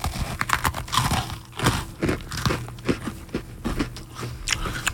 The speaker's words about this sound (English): I'll eat with my mouth open to get the sounds.